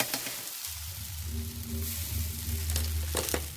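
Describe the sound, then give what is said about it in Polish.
Sizzling of wax softening as colored pigment is mixed in to make a wax head: a steady crackling hiss runs throughout over a low, even hum, with a few sharper pops toward the end. “Wosk mięknie, skwierczy i z czasem zamienia się w kolejną głowę.”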